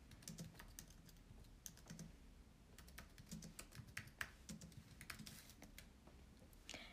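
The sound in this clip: Quiet typing on a computer keyboard, with irregular bursts of light, rapid key clicks and brief pauses between them, heard alone.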